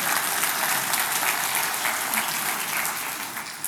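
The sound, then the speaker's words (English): Steady audience applause at a church service follows a scripture reading, a dense, even wash of clapping that holds for the whole stretch before tapering slightly at the end. “Let's give Alan a hand for saying Mephibosheth so many times.”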